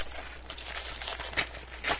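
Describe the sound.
Paper envelope being torn open: a steady crinkly rustling with a few sharper ripping bursts, heard alone without talk.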